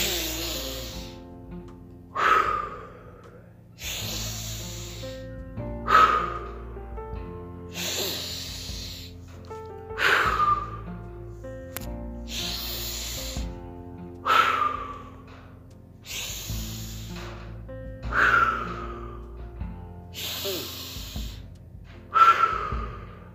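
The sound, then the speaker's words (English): Deep breathing in a steady, repeated cycle of long, forceful inhales and exhales, each with a breathy hiss and a sharper burst at its peak, the pattern holding an even rhythm throughout. “And 30 breaths. Let's go.”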